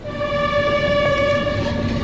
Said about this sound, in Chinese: 初冬寒夜，嘹亮的汽笛回荡在寂静的青藏高原。